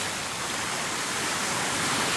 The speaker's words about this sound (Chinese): 四十分钟后，崔丽和萧啸天漫步在海滩上，海浪翻滚，涛声汹涌